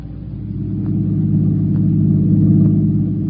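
A car driving fast gives a steady, loud, low engine rumble that swells slightly in the first second and then holds level throughout.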